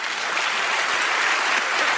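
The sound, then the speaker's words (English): A large audience applauds an author at a book talk. The clapping is loud, dense and steady, and no other sound is heard over it. “Let's applaud and then ask questions.”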